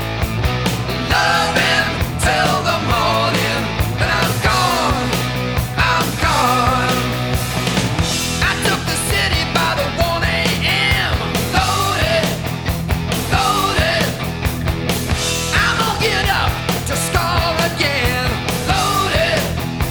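A heavy metal song plays loudly and continuously: driving electric guitars, bass and pounding drums with a sung vocal line, dense and steady throughout.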